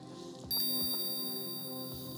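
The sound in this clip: A hypnosis bell struck once, giving a bright, high metallic ring that lingers steadily with shimmering overtones after the strike.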